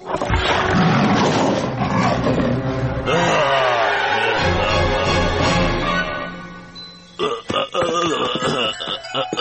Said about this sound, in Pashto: یو ځل یو پړانګ په هغه ټوپ کړ او ورباندې وغورېده